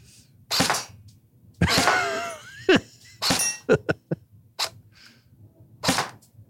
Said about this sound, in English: Like a moth to a flame, the man has to shoot airsoft guns. You counting your shots there?